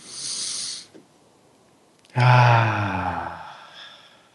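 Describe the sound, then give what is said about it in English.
A deep breath taken together: a short breathy inhale, a brief pause, then a loud voiced sighing exhale that slowly fades over about two seconds. “Let's all take a breath together.”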